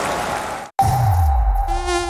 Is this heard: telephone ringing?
no